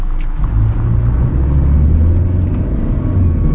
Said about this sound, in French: Un pick-up est venu récupérer des Vietnamiens au bord d'un champ. Alors on va le suivre jusqu'à sa destination, chez le verger de Madame Wan, juste à la sortie du village.